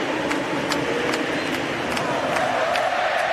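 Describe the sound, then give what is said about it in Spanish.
Football stadium crowd at an Argentina national team match: a steady, dense roar punctuated by evenly spaced sharp beats roughly every 0.4 seconds. “Escuchen el público, escuchen el público.”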